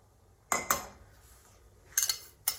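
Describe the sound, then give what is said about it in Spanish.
A few sharp kitchen clinks of utensils and containers sound while salad dressing is made with oil and a little salt. They come in quick pairs separated by quiet stretches, with no talking. “Y ya finalmente vamos a preparar el aliño. Cogemos el aceite, añadimos un poquito de sal.”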